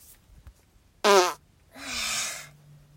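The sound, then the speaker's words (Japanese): Two farts in a row: a short, buzzy, tonal one, then a longer, breathier and flatter one after a brief pause. “よし、今お仕事中、おなら出しますね。”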